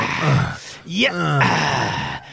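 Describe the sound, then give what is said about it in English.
A man imitates an old man groaning while putting things together. He makes a few strained, drawn-out vocal groans with wavering, sliding pitch. “There's a lot of old man groaning when we put this all up. Oh, yeah. It was like,”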